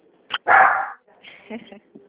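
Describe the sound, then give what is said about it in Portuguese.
Dogs barking: a short sharp yip, then a longer, louder bark, followed by several fainter, lower yips and whimpering barks. “Cachorrada demais.”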